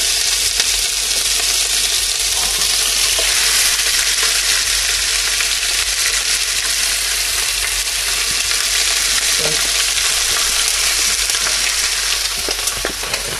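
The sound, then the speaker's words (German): Meat for goulash sizzles as it sears in a very hot pan, a loud, dense, steady hiss and crackle running through the whole clip with scattered small pops. “braten wir das mal schön an. Ihr könnt euch das Fleisch selber schneiden”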